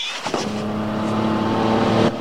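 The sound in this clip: Car engine droning as a driver pulls up outside a house, a mid-pitched hum with steady harmonics that grows a little louder before cutting off abruptly near the end.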